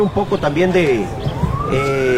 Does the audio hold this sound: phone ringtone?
no